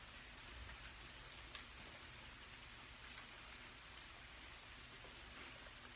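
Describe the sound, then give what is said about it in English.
Steady rain pours down outdoors during a rare rainstorm, a dense, even hiss of drops that holds unchanged throughout with no voices. “I'm outside and it's a rare rainstorm, but I'm just sitting on the ground.”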